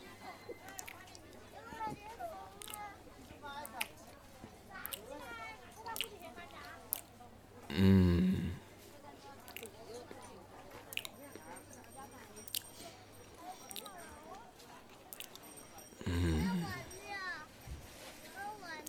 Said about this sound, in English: Okay, I'm going to take my first bite now.